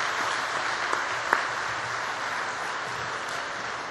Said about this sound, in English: Perhaps you might like to give a nice hand to Brian Sand and his quintet. He's been playing for a half hour.